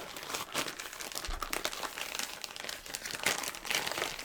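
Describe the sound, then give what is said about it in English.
A plastic bag of packaging is opened and crumpled while an item is taken out of a box: continuous faint crinkling and rustling with irregular crackles, and no voices. “I'm just going to open that up. Maybe some sort of bag. It's almost like a bag of some sorts”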